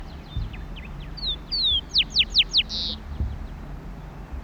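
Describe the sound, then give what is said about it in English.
A rufous-collared sparrow sings in open country with tall bushes and totora reeds: a short series of clear, high whistled and descending slurred notes, moderately loud, over a low background hum with faint calls of other birds. “Zonotrichia capensis, rufous coloured sparrow.”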